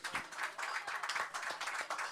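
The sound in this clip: Audience applause for a guest just introduced on stage at an evening show: a dense, steady wash of many hands clapping at once, holding at an even loudness throughout with no voices over it.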